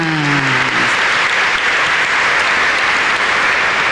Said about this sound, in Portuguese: uma vibrante salva de palmas.